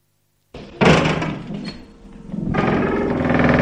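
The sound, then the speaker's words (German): A door creaks open with a sudden onset, then a fairly loud, grinding creak that drags on unevenly and swells again toward the end, with no voices. “Es war ein Türknarren.”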